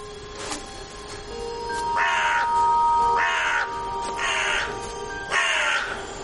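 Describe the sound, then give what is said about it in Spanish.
Crows caw in a forest, landing on a nearby tree: four harsh, loud caws at a fairly even pace, each a short raspy burst, with a faint thin call before them. “Dos cuervos se posan sobre un árbol cercano.”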